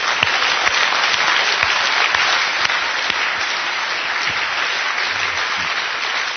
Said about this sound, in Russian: let's give the Lord a big hand.